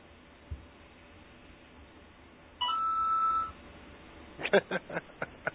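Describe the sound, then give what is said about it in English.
Phone text-message ringtone: a steady electronic tone that holds for under a second, then a quick run of short, bright beeps over a low background hiss. “Leave it to me to get a text message with that ringtone right as he's almost fully submerged.”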